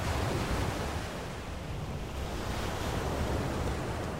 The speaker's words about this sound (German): Die Wellen funktionieren, die Wellen beruhigen mich.